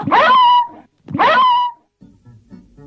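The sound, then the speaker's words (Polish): A dog barks twice in drawn-out, whining yelps with a wavering tone, each loud and separated by a short pause, followed by faint low rustling. “Także i ta psina nie wynarodowiła się i szczeka czystym wileńskim akcentem.”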